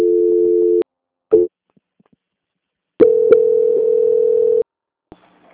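Telephone transfer tones on a phone call to a bank: a steady low electronic tone, a short blip, a pause, then a longer tone of the same pitch. The tones are loud and clean, and no one speaks.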